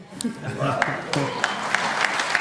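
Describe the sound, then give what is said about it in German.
Applause breaks out during a German quiz-style game of quick either-or questions, scattered claps crackling under someone talking and rising to a steady patter across the couple of seconds. “Gib einen Applaus von mir auch.”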